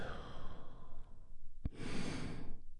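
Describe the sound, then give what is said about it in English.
A deep breath drawn in, followed by a long, audible exhale, taken as part of a guided relaxation exercise. The breathing is soft and airy, with no talk over it. “as we begin with a big, deep healing breath. All together, here we go. And release.”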